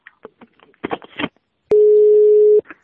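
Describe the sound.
A telephone busy signal sounds after the other side hangs up: one steady mid-pitched tone lasting about a second, starting with a click and preceded by faint, broken voice fragments.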